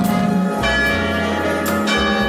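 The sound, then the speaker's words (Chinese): Church bells ring with a few strikes, each followed by a dense, sustained metallic hum of overlapping tones at a steady, fairly loud level. “你看又有教堂的钟声响”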